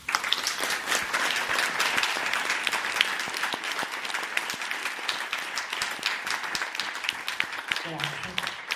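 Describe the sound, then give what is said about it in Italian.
Sustained audience applause at a public assembly: dense, steady clapping that holds at an even level for the whole stretch, with a voice briefly audible near the end. “vi chiedo un gran applauso per queste donne coraggiose e tante come loro.”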